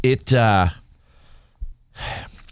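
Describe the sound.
A breathy gasp, someone catching their breath, comes as a short rushing intake of air after a brief burst of speech and a faint pause.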